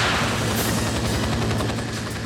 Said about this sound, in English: Alright, let's just keep shooting. That was pretty far. That's one.